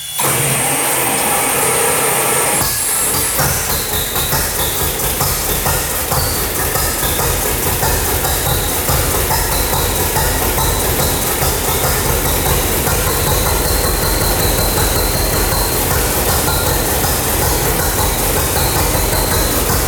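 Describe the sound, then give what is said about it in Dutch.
A 1948 John Deere engine runs steadily, a loud, continuous mechanical drone with a dense, even rumble that holds for the whole stretch after a brief change near the start. “weet je wat, we gaan zo direct eens eventjes luisteren naar de John Deere uit 1948 was het.”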